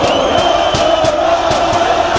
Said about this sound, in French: À peine sortis du Parc des Princes, les supporters du Paris Saint-Germain donnent de la voix.